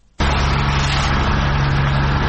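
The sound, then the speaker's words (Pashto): Steady engine drone from a municipal vehicle removing security barriers in front of the governor's office in Tarinkot, Uruzgan province. It starts abruptly and then holds loud and even, with a low hum running underneath. “دا د ترینکوټ شاروالۍ موټر او کارکونکي دي چې د طالبانو په غوښتنه د اروزګان ولایت په مرکز ترینکوټ شار کې د ولایت مقام مخې ته هغه موانع لري کوي”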